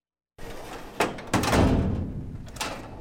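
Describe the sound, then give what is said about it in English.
Metal file cabinet drawer being rifled through, full of constituents' emails and letters at a state capitol: a steady scuffling rustle with a few sharper metallic thunks and knocks. “rifles through a file cabinet full of emails and letters written by constituents to his boss”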